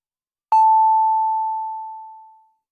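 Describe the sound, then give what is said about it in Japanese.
The 6 o'clock time signal from an FM radio station sounds alone: a single pure, mid-high beep that starts sharply, holds for about two seconds and fades out smoothly. “カズノきりたんぽ FM が6時をお知らせします。”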